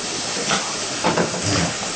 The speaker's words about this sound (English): when the mushroom has already become very hot and steamy, that is good enough.